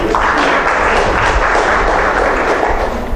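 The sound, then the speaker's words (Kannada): Many hands clap in a dense, steady wash of audience applause at a public lecture on the Katha Upanishad, sustained throughout and easing slightly at the end. “ಒಪ್ಪಿಗೆ ಇದ್ದು ಚಪ್ಪಾಳೆ ಹಾಕ್ಬೋದು”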